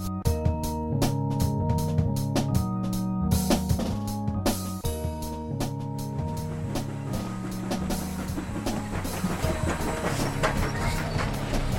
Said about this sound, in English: The click of the wheels on the rails gets into your blood.